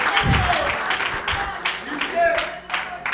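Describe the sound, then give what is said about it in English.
A church audience claps during a sermon. Uneven bursts of hand clapping rise and fall in loudness, with voices calling out over them. “Oh, clap your hands unto the Lord.”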